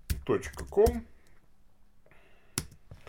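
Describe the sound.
Computer keyboard typing while an email address is entered into a chat: a few sharp key clicks follow a burst of talking, with a quiet pause between them.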